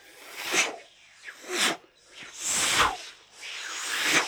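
Arrows whoosh through the air as they rain down on travellers fleeing on an elephant into the jungle. A few loud, breathy swishes come one after another, some short and some drawn out, with no voices.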